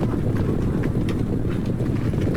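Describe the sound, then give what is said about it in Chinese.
Many horses' hooves clop as a Northern Wei cavalry column marches through a remote valley where the Taihang Mountains meet the North China Plain. The clopping is dense and continuous over a low rumble, with no voices. “太行山区和华北平原交界处的一个偏僻山谷里，一支北魏军队正在悄悄地行军。”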